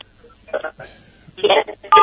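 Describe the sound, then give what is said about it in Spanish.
A mobile phone number is dialed, giving a few short, clear keypad tone beeps separated by brief quiet gaps, with the last tones the loudest. “Rápidamente cortamos la transmisión y vamos rápido a llamar nuevamente a nuestro móvil a ver qué es lo que sucede”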